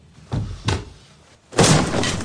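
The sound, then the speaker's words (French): A chair is smashed during a heated argument in a film scene: two heavy thumps in quick succession, then a louder crashing impact that lingers with a rough clatter. “à la fin de la scène, votre personnage De Gaulle casse une chaise.”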